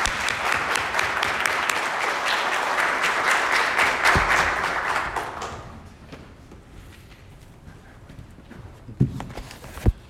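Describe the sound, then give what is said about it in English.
A church audience claps to welcome a guest speaker. The applause is a dense, steady patter that lasts about five seconds, then fades out and leaves a few scattered knocks and thumps. “So please welcome Pastor Danny Chung with a big hand.”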